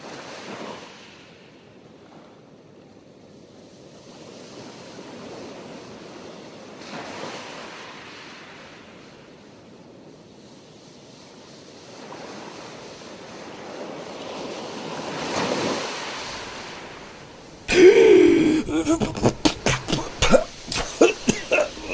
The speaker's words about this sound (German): Moment mal. Strand? Meer?